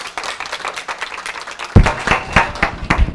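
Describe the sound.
A church audience applauding to welcome a young speaker to the front: scattered clapping that suddenly swells into fuller, louder applause partway through and keeps going to the end.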